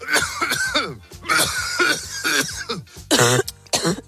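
Chesty coughing from flu: many harsh, voiced coughs and throat-clearing bursts follow one another in quick succession, rough and fairly loud, with a sharper, noisier cough near the end.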